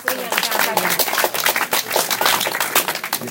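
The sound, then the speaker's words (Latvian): An audience at a pilgrimage gathering applauds with rapid, irregular claps, while people talk over the clapping. “aplausījām tā”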